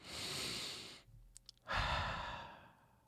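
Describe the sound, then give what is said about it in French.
A slow, deep calming breath: a long airy inhale, a short pause with a few faint clicks, then a long sighing exhale that fades out gradually. “Il essaya de respirer profondément. Faites-le avec moi.”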